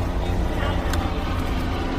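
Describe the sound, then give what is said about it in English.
A helicopter flies past with a loud, continuous rumbling roar. A steady low drone runs through the whole moment without a break. “That's the helicopter going by.”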